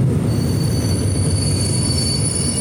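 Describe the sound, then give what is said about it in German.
A Mitteldeutsche Regiobahn regional train pulls into a station with a steady, loud, deep rumble of wheels on rail and a thin high squeal of wheels running above it throughout. “die Mitteldeutsche Regiobahn fährt hier gerade ein.”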